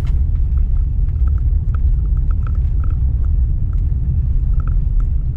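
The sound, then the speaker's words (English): Steady low rumble of a car driving out to the front gate near Area 51, loud and continuous throughout, with faint scattered ticks above the engine and road drone. “And I am driving out to the front gate to not trespass, but rather to see if anyone else has.”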